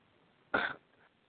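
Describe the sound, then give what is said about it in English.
A single short, dry cough, heard alone against a quiet background. “excuse me, let me cough here.”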